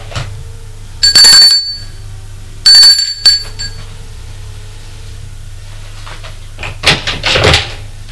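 A doorbell at an apartment rings twice with bright, clear bell tones in two short bursts over a steady low hum, followed later by a brief rustling clatter.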